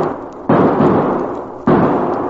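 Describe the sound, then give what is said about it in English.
Two loud, booming gunshots ring out in a western radio drama, a little over a second apart, each hitting abruptly and then trailing off in a long decaying rumble. “Billy Blue Blazes, those shots.”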